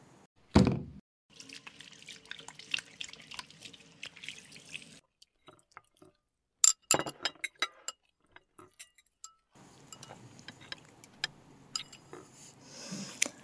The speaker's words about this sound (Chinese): 来，洗洗手，我们吃饭了。